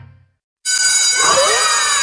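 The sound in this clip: A school bell rings for a lesson, starting abruptly after a short silence and holding as a loud, sustained metallic ringing with a bright, shimmering tone to the end.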